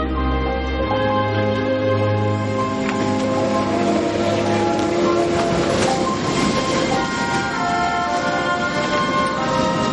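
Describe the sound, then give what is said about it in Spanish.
Long-distance train travelling through mountains, a steady loud rumble of rolling wheels with rhythmic clatter and faint metallic squeal, continuous throughout. “Un tren de larga distancia recorre un paisaje entre las montañas.”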